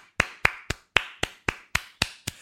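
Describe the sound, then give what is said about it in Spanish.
Studio clapping: nine sharp, evenly spaced hand claps ring out alone against silence, each one crisp and brief in a steady rhythm. “Un aplauso.”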